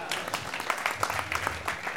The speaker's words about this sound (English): It's always confusing whether people are applauding for the movie or you or both.